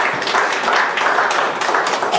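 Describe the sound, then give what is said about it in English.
Audience applause from a gathered audience: a dense, steady wash of many hands clapping, fairly loud and even, sustained throughout with no voices over it. “Give them a hand of applause.”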